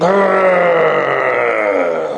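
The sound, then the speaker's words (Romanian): A voice imitates a failing 30-year-old tractor engine while plowing a field. It makes one loud, sustained groaning drone with a rough, buzzy tone, and the pitch sags slightly near the end. “So I'm out plowing with this thing. Și eu eram pe câmp și aram. And all of a sudden this engine goes.”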